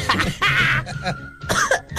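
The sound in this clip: A few rough, breathy coughs from a person, short bursts separated by brief pauses, with no talk between them.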